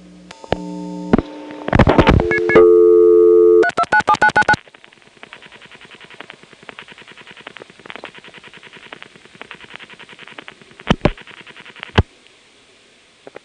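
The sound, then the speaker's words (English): A telephone call connecting through an electronic switching system exchange on a Centrex line: quick dialing tones and short electronic beeps, then a long, quiet buzzing line broken by a few sharp switching clicks. “Here's a call to the ESS in the Toco Hills building.”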